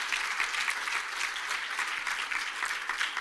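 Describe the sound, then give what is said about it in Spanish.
A church audience applauding in praise, steady, even clapping from many hands that holds at a moderate level throughout, with no talk over it. “A darle un aplauso al Señor.”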